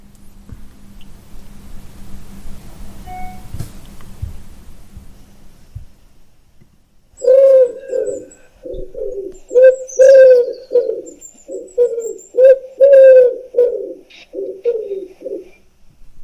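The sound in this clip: Wood pigeon cooing in a series of loud, rhythmic hooting phrases with short pauses between them, starting after several seconds of faint low background noise.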